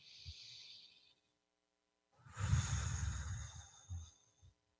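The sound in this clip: A person takes a deep breath: a soft, airy breath sound, then a pause of near silence, then a longer, fuller, sigh-like rush of breath that fades out with a small puff.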